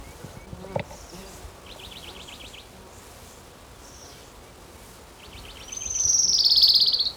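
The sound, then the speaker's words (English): An orange-crowned warbler sings, with short rapid trilled bursts of high chirps followed by a louder, sustained high buzzy trill near the end, over a faint background hiss. “his Orange Crown Warbler number 2.”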